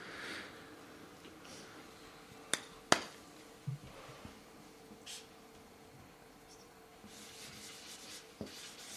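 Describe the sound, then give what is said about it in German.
Someone writes by hand, making faint scratchy rubbing strokes over a quiet background. A few sharp taps and clicks stand out between the strokes. “Ich schreibe es mal hin.”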